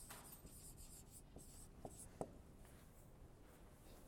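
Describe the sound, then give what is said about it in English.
Pen strokes writing down a figure, very faint, with soft continuous scratching and two small, sharper taps near the end. No voices. “Let's write that down.”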